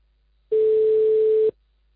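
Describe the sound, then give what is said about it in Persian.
An incoming telephone call's ringing tone: one steady, mid-pitched beep lasting about a second, loud and clean, starting and stopping abruptly with silence before and after. “گویا همزمان زنگ هم زدن به شما”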